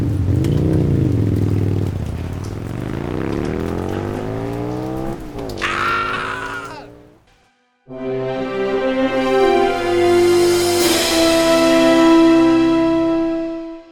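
A vehicle engine revs while being driven, loud, with its pitch sweeping up and down. The sound drops out briefly, then returns as a strong, sustained drone.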